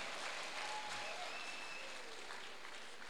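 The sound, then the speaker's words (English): Clapping from a church audience during a sermon, a soft, steady wash of hands with no breaks across the whole stretch, quiet and even in level. “I want you to clap for yourself.”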